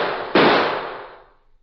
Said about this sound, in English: Did he get him? I can't see which one was shot.